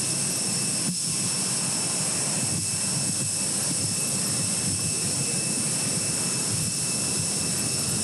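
Jet aircraft at ramp 4 of Simón Bolívar International Airport in Maiquetía: a loud, continuous engine roar with a steady high-pitched whine running over it, unbroken throughout with no voices.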